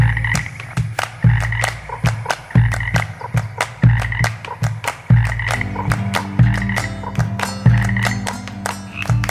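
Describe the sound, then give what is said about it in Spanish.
Frogs croaking in a dense, rapid chorus: many loud, rhythmic calls repeating steadily throughout, with no talking. “Cuando voy a traer agua me gusta quedarme un rato haciendo cantar las ranas”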